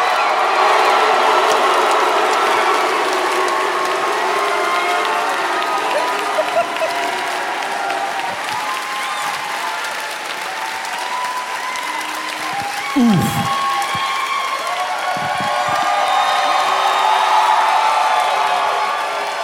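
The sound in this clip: A studio audience applauds and cheers as a co-host is welcomed onstage. Loud, continuous clapping mixes with whoops and crowd noise and holds nearly steady for about twenty seconds.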